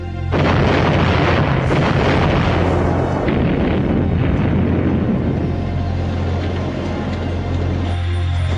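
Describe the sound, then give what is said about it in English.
A Hercules transport aircraft crashes into the desert with its engine running and explodes, making a long, deep, loud roaring rumble that holds steady for several seconds before easing slightly at the end. “heads steeply downwards and crashes straight into the desert with its engine still running normally. It is buried deep in the earth. Then it explodes in a ball of flame.”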